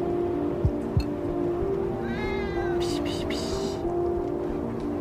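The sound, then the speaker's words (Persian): Cats meowing in a yard while being fed: a few faint, short meows rise briefly over a steady low hum and background noise. “سمیرا تو حیاط او داره به گربه ها غذا میده.”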